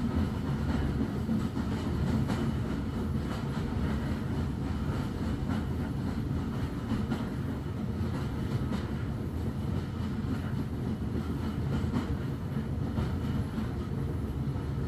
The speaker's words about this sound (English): Your carriage reaches the viaduct, and suddenly the ground drops away from beneath your window.